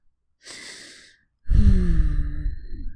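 Breathing in and out: a slow, airy inhale, a short pause, then a longer, louder exhale that turns into a slightly voiced sigh, heard alone.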